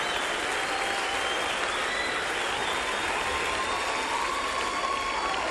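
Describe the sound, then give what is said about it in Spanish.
Applause for a trio: an unbroken, uniform wash of many hands clapping holds an even level for the whole stretch, with no voices over it. “aplauso al trío”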